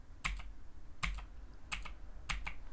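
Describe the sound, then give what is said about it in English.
Typing on a light pink Razer BlackWidow Quartz mechanical keyboard with tactile switches: four evenly spaced bursts of crisp clicks, each a sharp press followed by a quick lighter click, with no voices. “a Razer Quartz Black Widow. So it's a light pink one that's really nice. But as a point of reference, if you want to hear what this like tactile bump and click sounds like, it's like,”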